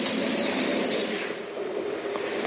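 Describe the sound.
A small remote-controlled tracked toy vehicle whirs as it drives forward and back and turns. A thin, high motor whine sags and fades midway over a constant, noisy mechanical hum.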